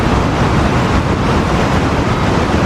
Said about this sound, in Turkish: Etkili yağışların ardından nehir seviyesinin yükselmesiyle şelalelerde su akışı normalin 4 katına çıktı.